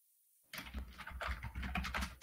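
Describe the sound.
Rapid typing on a computer keyboard: after a brief silent start, many irregular clicks and taps run without pause over a low hum.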